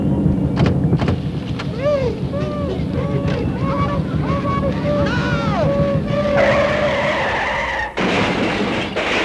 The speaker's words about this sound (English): I'll drive this heap right through the barrier